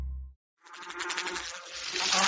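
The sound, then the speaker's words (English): A flying insect buzzes in a continuous, wavering hum with a rough, fly-like tone. It fades in after a short silence and holds fairly steady and moderately loud to the end. “Ew, hear that? Don't let one bug become an infestation in your home.”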